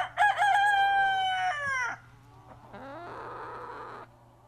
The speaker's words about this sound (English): but they are out and about scratching and cock-a-doodle doing and all sorts of things, enjoying being outside in the nature.